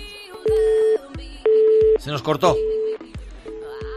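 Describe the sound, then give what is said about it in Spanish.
Telephone line tones after a dropped call: a series of evenly spaced, steady mid-pitched beeps, about half a second on and half a second off, with a voice briefly speaking over them midway. “Se nos cortó esa llamada.”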